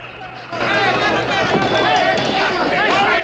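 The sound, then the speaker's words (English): An angry crowd murmurs and shouts at a riverboat dock as the boat Montana Queen arrives. The agitated babble of many voices swells in after a short quiet start and stays loud and restless. “The Montana Queen has arrived at the dock and an angry crowd is there to meet it.”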